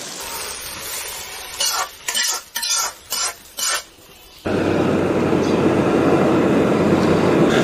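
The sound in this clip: Pork liver and side dishes stir-fried in a wok: a run of short, sharp stirring bursts, then a loud, steady hiss of frying that carries on without pause.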